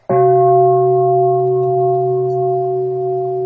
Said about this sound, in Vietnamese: Tiếng chuông mầu nhiệm đưa về quê hương.